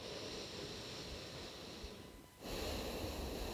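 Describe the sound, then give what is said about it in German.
Slow breathing in and out through the left nostril only, the right one held closed: a steady, airy hiss that dips to near silence for a moment, then resumes more strongly, with no talking over it. “Und jetzt hältst du mal das rechte Nasenloch zu und atmest nur links ein und aus.”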